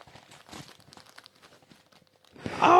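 Paper of a Nikolaus gift package holding Happy Socks tears open: faint scattered crinkling and rustling first, then a loud, sustained ripping burst at the end.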